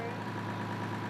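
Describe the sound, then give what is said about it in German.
Steady running engine of a restored American 1929 J.G. Brill Company railcar, a low, even drone with a continuous tonal hum that holds constant throughout. “Viel Energie haben die CEFU-Mitglieder in die Wiederaufarbeitung des amerikanischen Motorwagens der J.G. Brill Company gesteckt. Er ist Baujahr 1929 und der letzte seiner Art in ganz Südamerika.”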